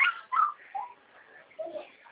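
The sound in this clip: A puppy whimpers in a few short, high, wavering whines separated by brief pauses. The whines are fairly faint and heard alone.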